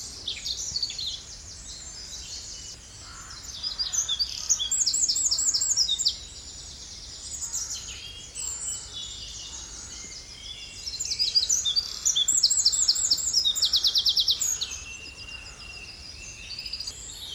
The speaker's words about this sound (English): I think it's amazing how soft that sound is when it comes out of a beak so fierce.